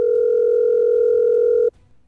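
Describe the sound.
A telephone tone sounds as a call rings through: one steady, mid-pitched tone held for about a second and a half, then cut off abruptly, leaving faint background noise.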